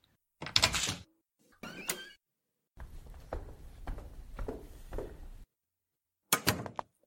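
An apartment door is handled and opened: a few short, sharp bursts of knocking and latch noise, with a longer rattling stretch in the middle and a final thud. Quiet overall, with silence between the bursts.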